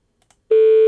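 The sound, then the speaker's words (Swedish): A telephone tone sounds as a number is dialed to place a call: a couple of faint clicks, then a steady, loud, unbroken electronic tone that holds to the end. “Ska jag slå in numret bara? Testar vi ringa Anki?”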